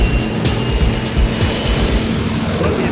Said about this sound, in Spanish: Iniciamos carrera de despegue.